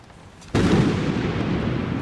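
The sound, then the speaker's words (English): A sudden loud boom as a lightning bolt strikes a fire of silver flames, followed at once by a sustained, dense crackling roar that holds steady to the end. “a bolt of lightning shot from the cloudless sky, striking the fire, enraging the silver flames”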